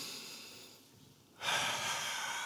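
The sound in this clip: A group of people in an Easter Sunday worship service breathing in together. A faint, airy hiss of breath suddenly swells into a loud, broad rush of breath about halfway through and holds steady to the end.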